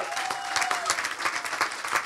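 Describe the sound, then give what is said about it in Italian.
Applause from a concert audience for a drummer introduced on stage, dense steady clapping at moderate loudness that carries on throughout. “Paolo Soffientini alla batteria, un applauso.”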